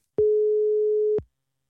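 A telephone tone sounds while a call is placed: one steady, clean beep of about a second, alone against silence.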